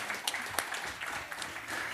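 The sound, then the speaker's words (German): An audience applauds a prize winner at a game giveaway event. The clapping is fairly faint and choppy, with a few sharper claps standing out near the start. “Ja, einen großen Applaus für Nicole.”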